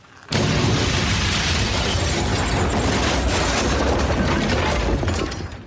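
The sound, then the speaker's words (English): A house collapsing with a boom, an abrupt, loud burst of crashing and breaking that stays dense and roaring for about five seconds before easing off. “The house fell down and went boom. Yes, it did.”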